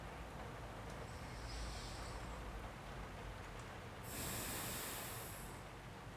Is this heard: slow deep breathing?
yes